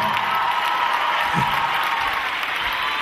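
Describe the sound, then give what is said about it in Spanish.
Audience applause at a live concert in a theatre, a steady, dense wash of many hands clapping at even loudness throughout, with no clear breaks or individual voices. “Más fuerte, a ver. Se viene. Dale los aplausos, ¿no?”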